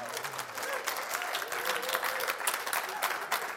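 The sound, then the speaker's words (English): Audience applause for Jesus at a worship gathering: a dense, steady wash of many hands clapping that holds at an even level through the whole stretch, with no pauses or clear build. “I'd rather we give Jesus a round of applause.”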